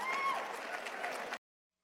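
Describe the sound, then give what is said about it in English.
Brief applause from an audience at the end of a man's remarks, a dense steady patter of clapping that holds for about a second and a half and then cuts off abruptly. “At the end, he got some applause.”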